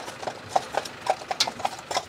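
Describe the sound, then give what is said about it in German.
Horse hooves clip-clop steadily as a team bred by its owners pulls a wagon on the island of Hiddensee, about ten crisp, evenly spaced strikes standing out over a faint background. “alle Pferde, die wir hier so vorm Wagen haben, unsere Gespanne, sind aus eigener Nachzucht.”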